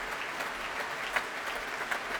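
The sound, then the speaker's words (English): Applause after a performance of Rossini's William Tell at the Royal Albert Hall in London: soft, continuous clapping with a few sharper claps popping out of the even wash. “I think the applause will go on for quite some time. So as we reach the end of this long, but certainly not seemingly long, evening of Rossini's William Tell here at the Royal Albert Hall in London,”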